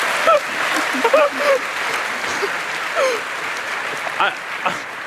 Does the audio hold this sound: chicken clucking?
no